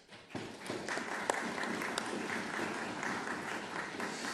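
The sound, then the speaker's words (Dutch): Applause from the members of a council meeting as a new committee member is approved by acclamation: dense, steady clapping that starts almost at once and holds at an even level for about four seconds. “En ik stel u voor dit bij acclamatie te besluiten.”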